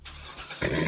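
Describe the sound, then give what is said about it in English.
A Corvette sports car engine gives a brief low rumble, then surges sharply louder into a fuller roar partway through. “You hear that? That's the sound of America's only sports car. That's right. It's a Corvette.”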